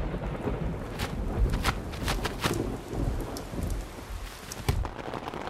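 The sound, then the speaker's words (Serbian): Rain falls steadily in a winter thunderstorm while low thunder rumbles beneath it. The broad, hissing patter stays loud and constant throughout, with no voices. “Grom zagrmi na Svetoga Savu. Usred zime, kad mu vreme nije.”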